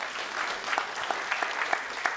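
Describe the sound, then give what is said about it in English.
Applause from a church audience, a dense, steady wash of many hands clapping for about two seconds with small rhythmic swells, no voices standing out. “Yeah, we can applaud God's good work on that.”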